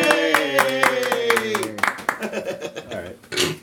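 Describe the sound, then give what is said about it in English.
A few people clap in quick, uneven bursts alongside cheerful voices and talk, the claps fairly quiet and thinning out toward the end. “Everybody give John a round of applause.”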